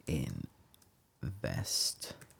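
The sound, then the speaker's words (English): Typing on a computer keyboard, a few faint clicks of keys heard between and under stretches of a person talking. “So can you hear me typing Northern?”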